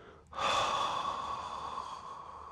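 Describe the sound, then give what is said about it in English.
A deep breath: after a short quiet moment, a strong rush of air starts abruptly and continues as one long, steady breath that eases slightly toward the end. “Really ensure that you're breathing in. And hold it. And then really exhale.”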